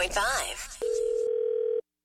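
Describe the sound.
A telephone dial tone as a radio prank call to a pizza place is placed: a steady, unwavering hum that holds for about a second after a brief stretch of voices, then cuts off abruptly.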